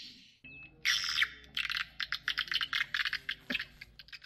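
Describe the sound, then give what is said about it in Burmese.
Recorded bird calls played through small speakers to lure birds into newly built nesting buildings: many bright, rapid chirps and tweets in quick bursts, fairly loud and steady, with no talk. “ငှက်လေးတွေရဲ့အတန်ငှက်မိတ်လိုက်တဲ့အတန်တွေကိုဖမ်းထားပြီးတော့စပီကာလေးတွေနဲ့တရလုံးဖွင့်ပေးထားရပါတယ်”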